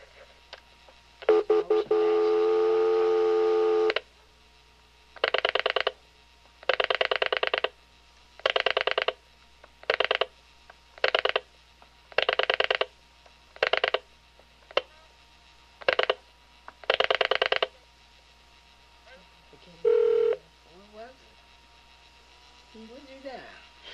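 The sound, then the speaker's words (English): Telephone keypad tones as a number is dialed: a long steady tone, then a string of separate beeps of varying length with short gaps, and one more short tone near the end. “So when I'm talking on the phone, can you dial that number over that way to see if she's there?”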